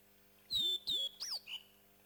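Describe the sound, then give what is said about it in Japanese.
Hawaiian hawk (io) calling in the sky over Hawaii: four short, high, thin cries in quick succession, each with a sharp whistled edge, the last one softer and briefer. “今日もハワイの空には一羽のイオが舞っています。”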